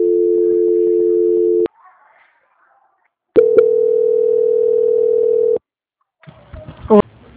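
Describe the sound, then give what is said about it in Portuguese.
Telephone line tones mark a call being transferred. A steady electronic tone plays, cuts off into near silence, then a second, longer steady tone sounds, followed by brief clicks and line noise as the connection changes. “só um minutinho então que eu vou transferir a ligação. Transferência.”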